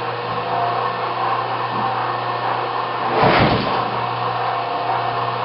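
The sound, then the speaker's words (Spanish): An electric generator running with no load gives a steady, even droning hum with a soft swell partway through. “En este momento tenemos al generador trabajando en vacío.”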